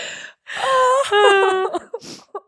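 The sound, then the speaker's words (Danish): A person cries in a brief burst of shaky, whimpering sobs with a quavering voice and breathy catches between them. “Nu sidder jeg og græder på din computer.”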